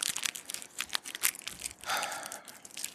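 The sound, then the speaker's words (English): Crinkling cellophane as a cigar is unwrapped from its wrapper, with faint, irregular crackles and rustles. “Let me get mine out of the cellophane.”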